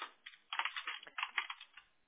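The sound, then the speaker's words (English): Faint computer keyboard typing as a name is entered at the bottom of an electronic signature form, a quick irregular run of soft, muffled clicks with a narrow, phone-like tone. “you're going to type your name at the bottom as it reads”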